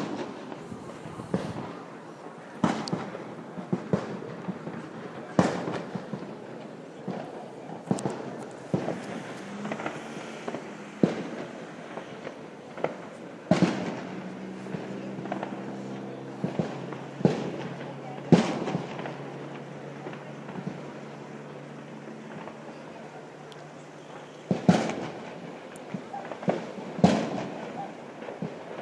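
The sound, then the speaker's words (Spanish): Many sharp, gunshot-like bangs from a crowd firing shots at a town's patron saint festival, as a procession comes down from a hermitage. The cracks land irregularly, some in quick clusters, over constant background noise. “hay un grupo de gente que dispara, que baja desde la ermita de donde va a bajar la imagen patrona de estas fiestas, y otra que viene en sentido contrario.”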